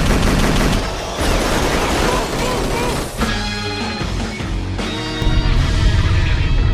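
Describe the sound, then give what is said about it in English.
Gunfire erupts as a magazine is emptied during a shootout, a dense, loud volley of rapid shots that rattles on without a break, with sharp cracks stacked tightly together. “We're shooting our way out of here, bro. Okay. On three, dude, you're gonna empty your mag and run. One, two, three.”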